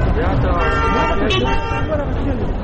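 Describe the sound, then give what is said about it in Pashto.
Cars and rickshaws pass along a busy market street in a steady wash of road noise, with a brief horn toot partway through, all beneath continuous voices. “موټران او رکشې یوې او بلې خواته تېرېږي.”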